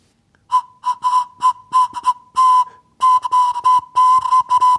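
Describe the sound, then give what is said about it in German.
A homemade flute carved from a carrot, with a drilled bore half-plugged by a small carrot piece, plays many short breathy toots, all on the same steady mid-high pitch, in an uneven rhythm. “Jetzt bräuchte ich nur noch so Grifflöcher, damit ich unterschiedliche Töne spielen kann. Bis jetzt macht die Möhre nur einen einzigen Ton.”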